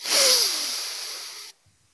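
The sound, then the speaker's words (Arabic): A single long exhale after a held breath during a breathing exercise: a breathy hiss that starts strong, eases slightly, then stops abruptly after about a second and a half. “اعملها مرة ثانية اكتم النفس واحد اثنين ثلاثة أربعة زفير مرة ثالثة شهيق”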